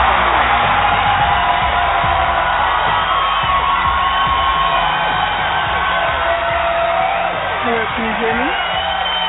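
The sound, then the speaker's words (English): A studio audience cheering, whooping and shouting, loud and continuous with overlapping voices and no break in the noise. “But the studio audience is on hold for you. Oh, I'm having trouble. All right, people, quiet down, quiet down, people, quiet down.”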